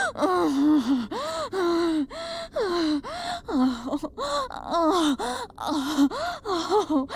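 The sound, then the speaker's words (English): Repeated drawn-out groans and breathy moans, many voiced bursts that bend up and then down in pitch, separated by short gasping pauses and fairly loud throughout. “How you groan for me.”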